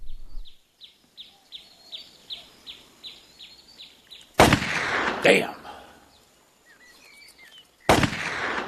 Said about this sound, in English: What are you shooting at? Playing cards. I used to could split them at 30 paces. Stop wasting powder.